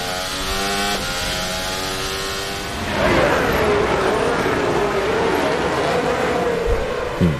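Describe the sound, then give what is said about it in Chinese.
High, harmonic engine whine from Ferrari Formula 1 race cars driving into the first corner. Steady notes swell louder at about three seconds, and the pitch then slides down as the cars slow for the turn. “法拉利双车进入到一号弯”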